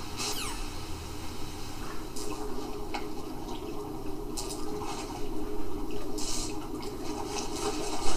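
Underwater swimming in a video game: a steady, muffled watery rush with a few short splashy bursts. It grows slightly louder toward the end.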